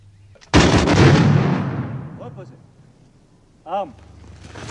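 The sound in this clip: Soldiers of a firing squad fire a single simultaneous volley of gunshots at an execution in the Vendée. The loud, sharp blast trails off into a long, rumbling decay, followed by brief voices.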